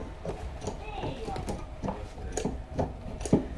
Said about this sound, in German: Das ist Leder und durch diesen Lederdehner wird das aufgeweicht.